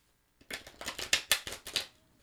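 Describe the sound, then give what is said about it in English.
Tarot cards are shuffled, giving a quick run of about eight crisp, papery slaps and riffles that rise and fall in loudness, heard alone with no talk. “So here we go, tuning in, connecting to the sound of the cards.”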